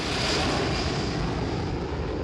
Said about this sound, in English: A plane takes off, then is flying over Washington.